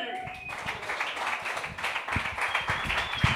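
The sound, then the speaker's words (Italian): Audience applause at a stand-up comedy night: a steady, dense patter of many hands clapping through the whole clip, with voices mixed in. “E allora un grandissimo applauso per quell'uomo di merda di Simone Luzzi.”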